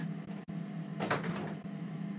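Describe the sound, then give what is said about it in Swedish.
A door being opened: a short burst of creaking and rubbing noise lasting about half a second, following a faint click, over low steady background noise. “Jag ska öppna dörren igen.”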